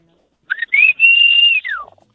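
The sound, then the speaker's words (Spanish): A person whistles a signal to call playmates out to play football in the street: two short chirps, then a long steady high note, ending in a quick falling glide, heard alone and clear. “Entonces ya nos poníamos en la calle y empezamos a chiflar.”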